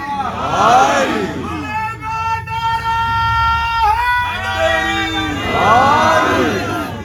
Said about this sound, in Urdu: بھائی نے نعرہ لگوایا بندوں نے یا علی ایسا سا کہہ دیا